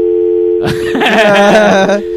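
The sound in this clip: A steady telephone dial tone hums at a fixed pitch while a call is being placed, loud and unbroken throughout, overlaid midway by a burst of brighter, busier sound before the tone continues alone.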